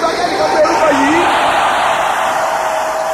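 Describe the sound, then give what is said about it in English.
A church audience shouts the name Jesus, a loud, sustained swell of many voices blending into a steady roar of crowd noise. “And the name of that Word is Jesus. Let me hear somebody shout that name.”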